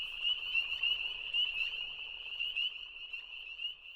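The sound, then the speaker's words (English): Frogs croak in a steady, high-pitched pulsing trill that runs unbroken and fairly quiet from start to finish. “However, what I want to talk about are frogs.”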